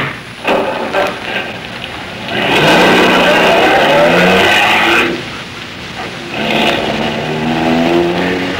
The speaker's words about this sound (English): Okay, shove over, Grandpa. I'll drive back.